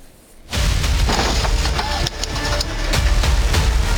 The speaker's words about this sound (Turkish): Kontrolden çıktı, bariyerlere çarparak devrildi.